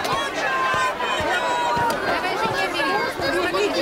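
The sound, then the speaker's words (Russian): Crowd chatter fills a busy open-air market square where goods lie on cloths on the ground. A dense, steady babble of many overlapping voices continues without a break. “Оживленная площадь.”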